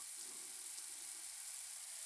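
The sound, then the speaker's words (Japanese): Running water from a shower, a faint, steady hiss that stays even and unbroken throughout. “やっぱり水の流れる音ってなんかいいよね。”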